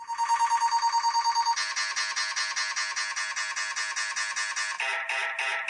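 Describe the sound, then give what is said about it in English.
An MRI machine scanning gives out a loud, relentless electronic pulsing buzz, beating in a fast, even rhythm, its pattern shifting a couple of times but never letting up. “that sounds very much like an MRI machine." And indeed, that is an MRI machine. Listen again.”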